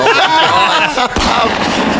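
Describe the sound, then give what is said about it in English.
A gunshot sound effect fires during a tabletop role-playing game as a character shoots their partner after a critical failure: one sharp, loud burst about midway, with a noisy tail and voices before it. “Oregon's dead, baby. You shoot your partner.”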